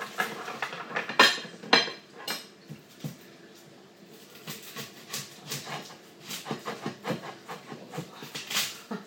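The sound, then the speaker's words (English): A cheap store-bought knife scrapes and clicks while peeling an onion: many short, crisp knocks and rustling scrapes of skin in an irregular rhythm, fairly quiet throughout. “Knife stuck in the onion, and it's not the best knife. It's not one of my new ones. It's I'm just peeling it now.”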